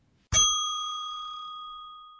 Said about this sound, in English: Let's fire up the bell.